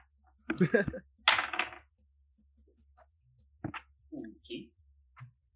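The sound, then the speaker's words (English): Dice roll for initiative in a tabletop game campaign: two quick clattering bursts, followed by a few fainter scattered clicks and taps. “We are going to roll the first initiative of this campaign, ladies and gentlemen. I need two of these. Oh, that's definitely the Empire dice.”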